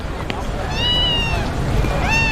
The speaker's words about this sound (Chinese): 你看，他们家新来了只猫，好特别啊！它是黑色的。